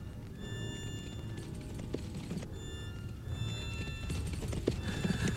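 Hooves clip-clop as horses are ridden, a steady, busy patter of hoofbeats that grows slightly louder toward the end, with a horse whinnying.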